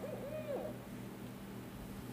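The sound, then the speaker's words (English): A barred owl calls with a few short, hooting notes at the start, then falls silent over a steady low background hum. “It's the sound of a barred owl.”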